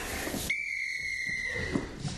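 A single referee-style whistle blast marking the end of a race, a clear high steady tone lasting about a second, preceded and followed by rough background noise.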